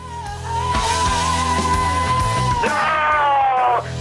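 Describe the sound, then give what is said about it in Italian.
A loud, sustained human scream holds one high pitch for several seconds, jumps higher near the end, then cuts off abruptly. “l'urlo di Freccero ha commentato in modo efficacissimo.”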